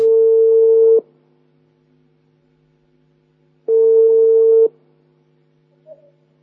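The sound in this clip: Telephone call being connected: two long, steady mid-pitched ringing tones, each lasting about a second and separated by a silent gap of nearly three seconds, followed by a faint short blip.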